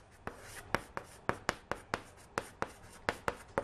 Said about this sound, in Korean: 그 다음에 실험 2도 써볼게요, 밑에다가.